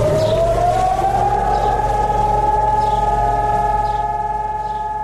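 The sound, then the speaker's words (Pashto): A memorial alarm siren sounds in Jerusalem on Holocaust Remembrance Day. It is a loud, continuous wailing tone that rises slightly in pitch in the first second, then holds steady throughout. “پرون په بیت المقدس کې په دې مناسبت د ځانګړي الارم لغږولو سره په یو وخت موټرونه پر سړکونو ودرېدل، خلک ترې ښکته شول او د درناوي لپاره دو دقیقو په خاطر چوپ پاتې شول.”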